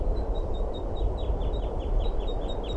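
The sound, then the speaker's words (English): A male bird gives flight calls behind a female near a nest, a quick series of many short, high chirping notes repeated in a steady rhythm over a constant low rumble. “And the male behind her giving flight calls.”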